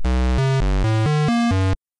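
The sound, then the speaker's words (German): Video game music played through a PC speaker: a thin, buzzy square-wave melody of seven held single notes at shifting pitches, loud and alone, stopping abruptly. “Hören wir uns mal einen etwas unfairen Vergleich an, wie Musik in einem PC-Spiel klingt. Vielleicht erkennt ihr es. Also erzeugt durch den PC-Speaker, das klingt so.”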